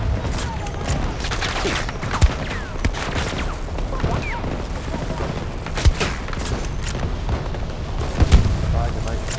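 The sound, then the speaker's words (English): Grenade explosions and gunfire from a video game: a continuous rumble of firing is broken by a few sharp, louder booms, while a player talks over the action. “Oh, multi-kill right, with the grenade.”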